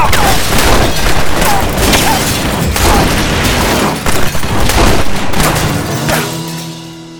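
A fusillade of revolver gunfire from Colt revolvers in a close-range gunfight, a dense, loud barrage of overlapping shots and booms that runs almost without pause before easing off at the end.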